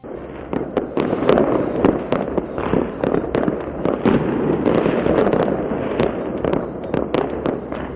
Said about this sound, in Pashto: پایتخت کې د دغه ډلې مرسته کوونکو په هوا کې ډزې کړې او خوشاله یې نمانځلې.